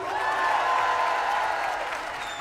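Concert audience applauding and cheering for a singer, a dense wash of clapping and crowd noise that holds steady, then tapers slightly toward the end.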